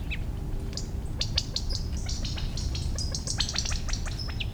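Quail parents call after their half-grown chicks with many short, high chirps and tweets in quick, irregular bursts over a steady low background rumble.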